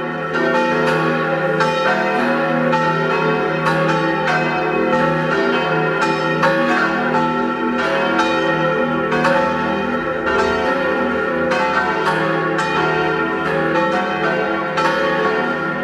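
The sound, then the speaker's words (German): Church bells ring at noon in Egg, Vorarlberg, in a loud, continuous peal. Many overlapping strikes and sustained ringing tones fill the whole stretch without a break. “Es ist 12 Uhr. Sie hören die Glocken der Kirche zum heiligen Nikolaus in Eck in Vorarlberg.”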